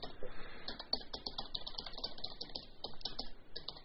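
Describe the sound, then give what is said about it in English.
Two-finger typing on a computer keyboard, with irregular, quick plastic key clicks pecking along unevenly at a fairly quiet level. “2-finger typing, folks.”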